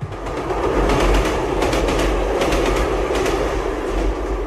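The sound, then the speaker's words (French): Train sounds from a sound effects record: a loud, steady rail rumble with rhythmic clickety-clack of wheels over the track, heard alone with no voices. “ce disque propose un échantillon de sons du jazz, du classique, mais aussi des sons de train, par exemple”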